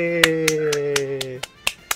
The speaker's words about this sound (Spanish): Aplauso, la verdad.